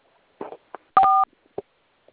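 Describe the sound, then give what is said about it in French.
A telephone keypad tone as someone dials a star code: one steady two-tone beep set among a few short, soft clicks, with no voices. “Vous allez composer étoile 440.”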